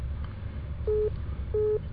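A telephone busy signal gives two short, steady mid-pitched beeps separated by a brief pause, heard over a constant low hum on the line.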